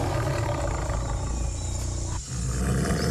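A lion roaring gives a deep, sustained rumbling roar that keeps going with a brief dip near the end before it swells again, loud and continuous with no talking.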